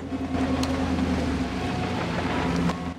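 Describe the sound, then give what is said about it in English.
A car drives off near a creek, its engine holding a low, steady drone at even loudness for the whole stretch, with no voices over it. “Jessica gets out of the car. Dottie drives off.”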